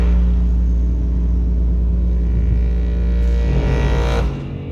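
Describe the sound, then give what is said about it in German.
A car driving on a road during a family trip toward Flensburg, with a steady low engine and road rumble throughout that eases off slightly near the end. “Es ergibt sich die Gelegenheit, dass mein Vater und ich zu einem kleinen Familienbesuch in die Nähe von Flensburg fahren.”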